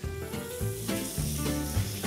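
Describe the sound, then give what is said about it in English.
Pork sizzling in a hot frying pan, left unstirred after being spread out with a spatula, gives a steady crackling hiss that runs evenly through the whole clip with no talk over it. “Now, once the pork's in, just spread it out slightly with your spatula. But after that, do not stir it, okay?”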